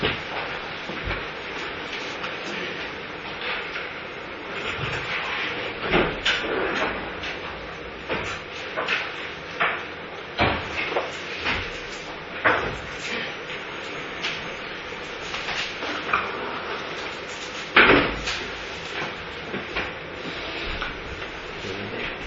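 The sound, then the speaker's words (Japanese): Windows slid closed during a church service: a long run of faint rolling rumbles and scattered clunks, with a louder knock near the end. “ではまた窓を閉めていただきます。”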